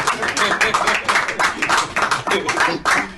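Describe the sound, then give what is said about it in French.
Congregation clapping during a church service, a dense, loud run of hand claps keeping a fairly steady, regular beat throughout. “Applaudissons pour le Isaac d'Edea. Applaudissons parce que vous êtes jaloux.”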